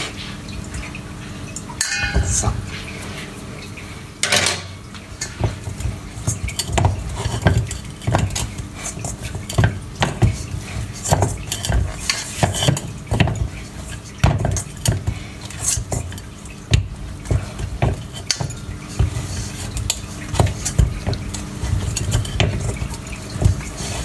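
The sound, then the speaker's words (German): Semolina dough being kneaded by hand in a bowl held steady with the other hand: many irregular soft squelches, slaps and scrapes against the bowl, continuing throughout with no talk. “es funktioniert ganz gut, nur mit einer Hand zu kneten und mit der anderen die Schüssel festzuhalten.”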